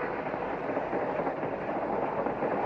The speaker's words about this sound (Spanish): Halley y Ramson viajan en tren.